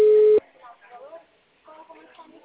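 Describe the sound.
A telephone busy signal after a dropped call: one steady electronic beep cut off quickly, followed by faint voices talking.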